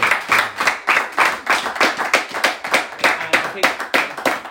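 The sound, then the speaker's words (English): Applause from an audience at a book talk: many hands clap together in steady, pulsing bursts throughout, fairly loud and unbroken. “Give you a little round of applause.”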